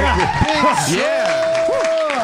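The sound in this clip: Virtual audience applause played as a sound effect to greet a guest, a continuous clapping and crowd wash running under loud voices talking over it.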